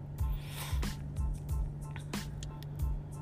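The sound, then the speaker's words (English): Repeated short nasal sniffs from a person who is sniffling and sneezing, several breathy snorts spaced irregularly at a moderate, fairly soft level with no talk. “Excuse me sniffling, y'all. I done came here and I'm over here sniffling, sneezing.”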